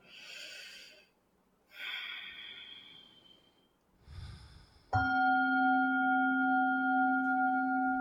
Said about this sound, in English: And let's take one breath together.